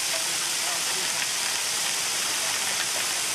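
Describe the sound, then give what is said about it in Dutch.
Cocoa beans pour from a tipped shipping container with a polypropylene liner into a warehouse, making a loud, steady, rushing hiss with no breaks. “Zodat de cacaobonen bij het openen van de deuren niet meteen op straat vallen of in de lood vallen. Nou, daar gaan ze, hè. Daar gaan ze, de cacaobonen.”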